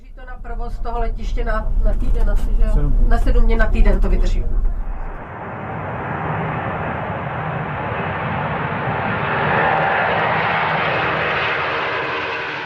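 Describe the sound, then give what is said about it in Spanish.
An airplane approaching an airport runway, a loud, steady engine roar that swells slightly, heard after a stretch of someone talking. “En el horizonte aparecen unas luces amarillentas que señalan que se está acercando otro avión.”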